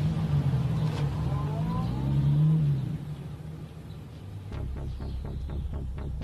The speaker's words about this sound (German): Jetzt fährt er mit einem Cabrio davon.